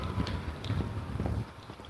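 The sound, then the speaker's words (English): A goat's hooves clip-clop as it approaches, several faint, irregular taps mixed with soft wind noise. “Oh, here comes the goat.”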